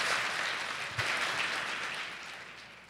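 Applause in a children's church service, a steady wash of many hands clapping at once, fairly faint, with one slightly louder clap near the start before the sound gradually fades.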